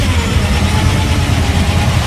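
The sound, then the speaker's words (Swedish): Low, steady engine rumble of a Ford Mustang driven by a lone woman as it arrives at a swap meet, a continuous deep drone at constant loudness without a clear rev. “här kommer en ensam tjej i en Ford Mustang här”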